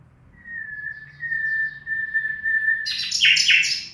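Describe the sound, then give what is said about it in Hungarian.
Nightingale singing from cover in a dense bush: one long, steady high whistle held for about two and a half seconds, then a burst of rapid, rich, trilled phrases. The song is clear and stands alone. “Hát sokak szerint ez a legszebb hangú énekes madár, de látni szinte sohasem lehet. Ez a fülemüle. A költők csalogánya.”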